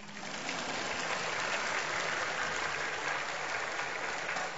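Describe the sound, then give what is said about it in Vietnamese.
An audience at a church gathering applauds, a soft, steady patter of many hands clapping that stays level throughout. “Vỗ tay là để tạ ơn Chúa chứ không phải để khen tôi đâu.”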